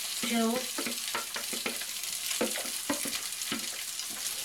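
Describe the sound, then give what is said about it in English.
Cooked rice frying with onions in a pan, a dense steady sizzle with repeated scraping and stirring knocks throughout and a brief voice near the start. “I'm going to add the rice, which has already been cooked.”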